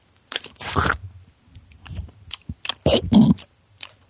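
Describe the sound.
Crunchy chewing of fish fillets by people eating, a few loud, wet crunching bursts separated by quieter pauses, with no talk.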